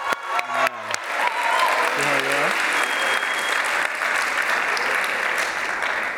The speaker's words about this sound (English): On my left, ladies and gentlemen, please make some noise for Dr. Victor Cortez.